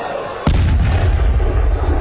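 A loud volley of gunfire and an explosion, fired to cover a retreating unit near a fort, bursts in abruptly after near-quiet and rolls on as a dense, sustained rumble to the end.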